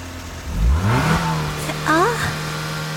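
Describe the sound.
A car engine revving as it drives off, a loud rising roar that climbs in pitch, then a second shorter burst of revving before settling into a steady hum.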